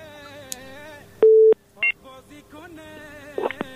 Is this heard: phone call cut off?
yes